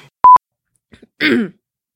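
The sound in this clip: Throat clearing and coughing from phlegm stuck in the throat: one rough, raspy burst of about a third of a second. A short electronic beep and a couple of faint small sounds come before it.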